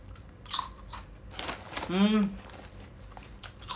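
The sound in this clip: Crunchy Thai snack chips from a convenience store being bitten and chewed: sharp, crisp crunches with a few distinct bites and packet crinkling, and someone talks between them.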